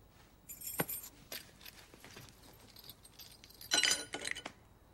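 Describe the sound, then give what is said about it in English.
House keys put down on a table: a faint metallic jingle with a few scattered light clinks, followed by a brighter cluster of jangling near the end, with no voices. “leaving the keys to the house on the table”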